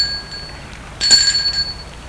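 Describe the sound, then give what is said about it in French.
A doorbell rings at a front door, one bright ding near the middle whose high, clear tones linger afterward over a faint background. “Et va sonner à la porte.”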